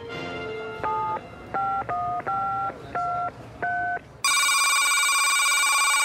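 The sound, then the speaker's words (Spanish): A telephone is redialed after hanging up: a low tone gives way to a quick series of distinct keypad beeps at varying pitches, then a loud, steady ringing tone. “colgó y volvió a marcar.”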